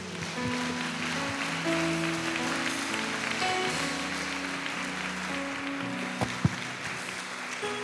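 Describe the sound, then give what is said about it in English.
An audience claps during worship at a church conference, a steady crowd patter blended with sustained musical tones that continue underneath throughout. “Let us clap for the Lord.”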